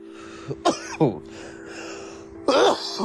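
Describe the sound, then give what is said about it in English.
Coughing and throat clearing from a person smoking a cannabis vape cart: a few rough, hacking bursts in quick succession, a pause, then a longer, louder cough near the end, all over a steady low hum. “I can't stop coughing.”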